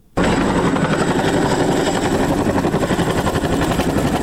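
An American Chinook helicopter flies to Sangin district in northern Helmand. Its loud, steady rotor thudding starts abruptly and continues with a fast, even pulsing beat over a dense engine roar.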